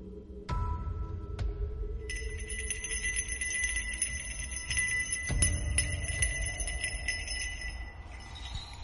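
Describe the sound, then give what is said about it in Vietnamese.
A ritual master's bell jangles with bright, sustained metallic ringing tones and a few sharp strikes, over a low rumbling background. “Cái chuông của ông thầy cứ len ca len keng, nghe đến kỳ quái.”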